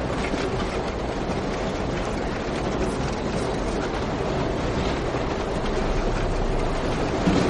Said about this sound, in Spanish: El tren circula a gran velocidad.